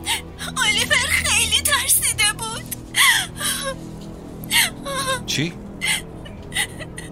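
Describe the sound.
A child crying loudly, with sobbing wails, whimpers and sharp gasping breaths in repeated bursts that grow more broken toward the end.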